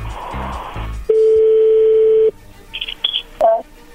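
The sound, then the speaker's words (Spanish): A telephone call being dialed: a steady dial tone holds for about a second, then a few short keypad beeps follow, with a brief burst of other sound at the start. “Bueno, vamos a llamarle a tu novia Verónica”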